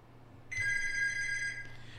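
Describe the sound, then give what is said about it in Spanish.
A telephone rings with an incoming call: one steady, high electronic ring lasts about a second over a constant low hum, then cuts off. “Permítame, creo que tengo problemitas por ahí. Voy a atender antes esta llamada”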